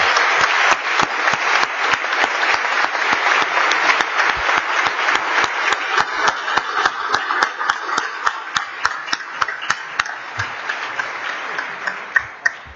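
Steady applause from a legislative chamber welcoming the week's pages, a dense clatter of claps with sharp individual strikes, loud and sustained throughout with no talk over it.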